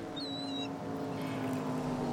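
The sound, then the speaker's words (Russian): Motorboat engines race on a bay as a faint, steady low drone that runs throughout. A brief high whistling chirp comes near the start. “Тут рядом залив? Да. Слышите моторы? Словно гоняют на мотоциклах.”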